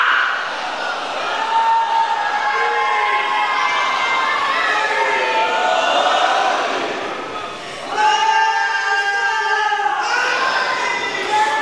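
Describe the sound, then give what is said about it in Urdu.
A crowd at a religious gathering chants slogans, many voices shouting in unison with a cheering edge. The chanting runs loud, dips briefly, then surges back at full strength. “نعرے بیٹا، میں نعرے کو منع نہیں کر رہا، مگر ایسے لگائے کہ پتہ چلے منظر۔”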